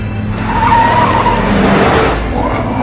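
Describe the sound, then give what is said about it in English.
Tires skidding and squealing as a car is driven very fast, a loud sustained screech over the roaring engine that holds for the whole stretch without any talk. “Wow. You're driving really fast.”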